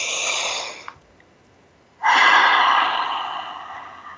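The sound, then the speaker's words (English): Deep breathing in a guided breathing exercise: one breath trails off, then after a short pause a long, loud airy breath swells and slowly tapers. “Let's take a breath together and really breathe that deeply in.”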